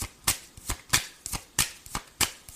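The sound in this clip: Tarot cards being shuffled to draw a clarifier card, with many crisp, rhythmic riffling bursts in quick, even succession, each one a short papery flutter.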